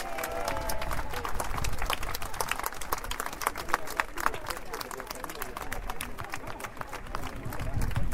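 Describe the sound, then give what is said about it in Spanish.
Applause for health centre workers at a community gathering: many hands clapping in a dense, steady patter that carries through the whole clip at an even level. “un fuerte aplauso a los trabajadores y trabajadoras de nuestro centro de salud”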